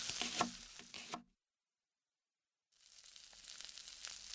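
Onion and leek, already browning, frying in a pot give a steady crackling sizzle with small pops, heard in two stretches split by a short silence.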